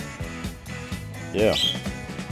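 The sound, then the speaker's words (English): A pet budgerigar chirping and chattering beside a person who is talking, with a brief burst of high, warbling chirps rising above the voice midway. “It's interesting how once I start chatting, the old budgerigar behind me starts to want to sing a lot.”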